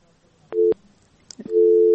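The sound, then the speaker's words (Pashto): A telephone busy tone follows a caller's dropped connection. Two steady low beeps sound: a short one, then after a pause another that holds to the end. A few faint brief sounds fall in the gap. “فکر کوم چې د دې اړیکه پرې شو.”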